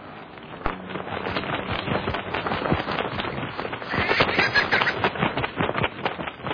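Cannons fire cannonballs during a naval battle between ships, a dense, rapid stream of booms and sharp cracks that keeps up throughout, loud and busy.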